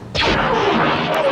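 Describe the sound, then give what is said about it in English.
XX9 Heavy Turbo Laser firing, a sci-fi weapon effect: one loud, sudden blast whose tone sweeps downward in pitch, trailing into a sustained, noisy roar. “The XX9 Heavy Turbo Laser has a very distinctive sound.”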